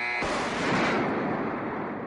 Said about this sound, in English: This is live firing from the Missouri during the Persian Gulf War.